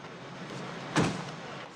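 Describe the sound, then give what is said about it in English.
A car bumps into another car while parking on a downtown street, a single dull thud that rises sharply out of a low, steady background and then fades quickly. “Susan bumps a car as she parks on a street downtown.”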